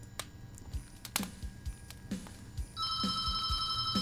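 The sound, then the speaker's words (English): Telephone ringing: scattered faint clicks give way to a steady, bright electronic ring that starts about two-thirds of the way in and carries on to the end. “Oh, there's a caller now, as they say.”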